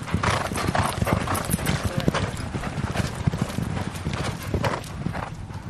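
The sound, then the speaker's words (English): Racehorse hooves clip-clop steadily as the horses are ridden out to the gallop for a warm-up. The dense, continuous clatter of hoofbeats sits over low rumbling background noise. “So we'll just go out to the gallop and we'll do a bit of a warm-up first and then we'll just do two canters on the gallop”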